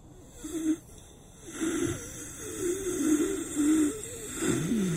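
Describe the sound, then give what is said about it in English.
Shallow, gravelly wheezing breaths from a man coughing more than usual, a mass consuming his lungs. A few rasping breaths carry a wavering, reedy wheeze tone, with the longest breath drawn out near the end. No talk. “I'd heard that same wheeze before. A shallow, gravelly breath, speaking to the mass that was consuming his lungs.”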